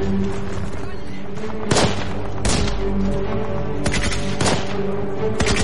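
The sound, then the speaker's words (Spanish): Gunfire and heavy booms from Second World War street fighting against machine-gun nests and anti-tank weapons. A few sharp, loud blasts punch through a steady tonal background at irregular intervals. “A medida que avanzan se topan con la resistencia de nidos de ametralladoras, armas antitanques y francotiradores.”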